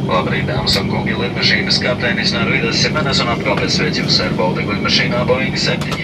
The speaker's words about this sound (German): Und damit setzen wir zur Landung im Baltikum an.